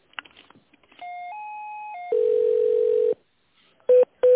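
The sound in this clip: Electronic telephone line tones play while a call to a company is transferred to its purchasing department: a steady mid-pitched tone that steps up and back down, then a louder, lower buzzy tone, followed by two short beeps.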